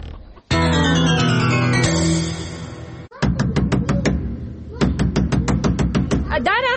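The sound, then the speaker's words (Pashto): Hurried knocking on a door: a rapid run of sharp knocks in quick, uneven bursts, preceded and underlaid by loud music. “څوک چې داسې په بیړه دروازه ټکایې”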